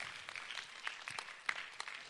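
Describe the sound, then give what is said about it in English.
Sparse, quiet handclaps from a church audience, a few separate sharp claps at irregular intervals rather than a full ovation. “Somebody should clap their hands and say amen and say thank you, Jesus.”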